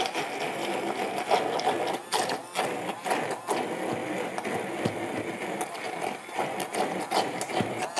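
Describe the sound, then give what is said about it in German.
Blender pureeing cooked parsnip and pepper: a steady, whirring motor drone with a rattling, grinding edge runs through the whole clip at an even level, with no talk. “Gut, ich habe die jetzt hier und jetzt gebe ich die mal zum Pürieren. Ich lege los.”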